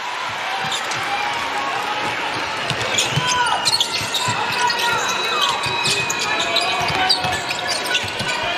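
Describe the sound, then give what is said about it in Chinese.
A basketball being dribbled repeatedly during a game against Spain, a steady run of sharp bounces under a commentator's voice and crowd noise. “现在伯克斯运球有点多”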